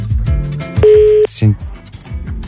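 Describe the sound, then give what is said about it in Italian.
A telephone signal: a short, steady electronic tone lasts about half a second and is followed by a brief higher chirp, over background music in a radio studio. “Timo Suarez, squilla il telefono”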